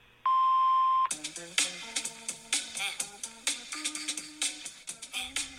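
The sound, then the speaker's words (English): A voicemail beep tone sounds once, steady and clear for under a second, then rhythmic plucked music starts and carries on to the end. “Please leave a message after the tone.”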